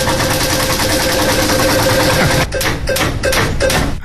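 A digital prize wheel spinning: a loud, dense, continuous rattle that breaks into a few separate ticks, spaced further apart as it winds down toward the end.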